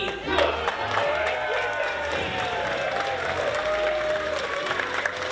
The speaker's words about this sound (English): Ladies and gentlemen, welcome to the Laugh Floor! And now, make some noise for your monster of ceremonies, me!